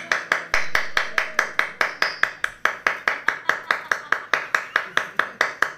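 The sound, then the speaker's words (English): Rhythmic hand claps in a long, evenly spaced series, sharp and crisp at roughly five per second, each snapping off quickly, carrying on steadily with no talk over them. “you'll be providing the 32 rhythmic hand claps.”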